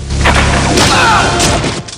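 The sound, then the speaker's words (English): An arrow fired by Rambo strikes a soldier in a dark cave during a film action scene: a loud, heavy thud with a booming low rumble, then a swishing whoosh that fades away. “Rambo fires an arrow, skewering the soldier.”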